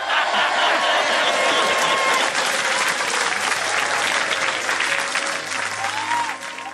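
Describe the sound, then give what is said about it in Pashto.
A crowd claps during a political speech, with many hands producing dense, continuous applause that stays loud and even before tapering slightly at the very end. “لاسونه وپړه کوه.”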